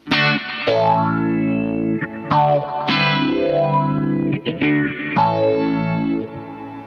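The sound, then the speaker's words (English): An electric guitar played through a Diamond vibrato effects pedal produces a series of sustained, slightly crunchy notes whose pitch wobbles steadily up and down, with each note ringing into the next. “And then the diamond vibrato, the infamous, no longer available pedal. So we can go like...”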